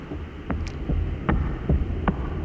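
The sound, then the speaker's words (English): A Vela pulsar radio signal, slowed down, comes through as a steady series of soft, thumping pulses at a regular beat, like a heartbeat, over a constant hum and hiss. “So the next I want to play you this Vela pulsar we talked about, right? This is the one that's spinning 11 times per second.”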